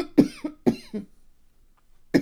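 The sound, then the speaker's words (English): A person coughing: a quick run of a few harsh, chesty coughs, a pause, then one more cough, each burst short and loud against near silence. “you can cough good if you want.”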